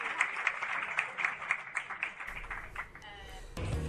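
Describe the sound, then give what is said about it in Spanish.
Audience applause at a meeting of recovered companies: quick, crisp claps in a fairly fast, even rhythm, fairly faint and mixed with voices, giving way to a rougher rush of noise near the end. “ahí sí, se ganó los aplausos y cambió el clima.”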